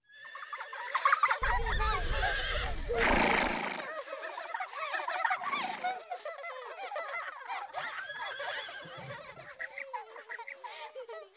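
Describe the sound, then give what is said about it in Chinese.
Horses neighing on a Tibetan grassland pasture, their whinnies rising loud early on and then continuing as many shorter, overlapping high calls that carry through to the end. “水草茂盛，辽阔无垠，是当地最大的一个天然牧场。藏民和马一起生活在这里。”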